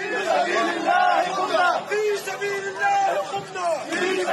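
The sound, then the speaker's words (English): A crowd of rebel soldiers cheers and chants at the historic citadel of Aleppo. Many voices overlap in loud, rhythmic shouts that rise and fall throughout. “cheers of triumph, the scene of rebel soldiers chanting at the historic citadel of Aleppo.”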